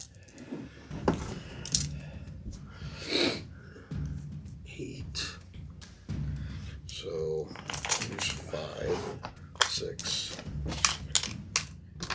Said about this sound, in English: That's way too many dice. I'm going to re-roll that because there's no way for me to accurately